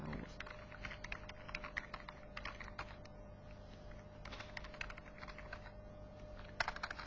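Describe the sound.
Rapid typing of commands on a computer keyboard, many quick, irregular keystrokes clicking in bursts at a faint, even level.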